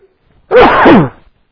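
A man sneezes once during a scripture reading: one loud, abrupt burst that trails off quickly.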